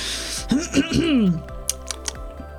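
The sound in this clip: A few crisp computer keyboard clicks, keys struck one by one while typing a prompt, follow a short stretch of voice and sound light and evenly spaced.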